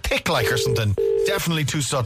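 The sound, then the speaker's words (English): Ringing tone of an outgoing phone call to County Louth, Ireland: two steady, mid-pitched tone bursts sound beneath continuous overlapping talk. “It's ringing. That's the sound of County Louth. This is a Louth ring. I know it well.”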